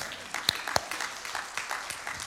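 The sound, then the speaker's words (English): Scattered audience applause rises during a talk, with a few sharp claps standing out over a faint, steady wash of clapping. “We can clap for that.”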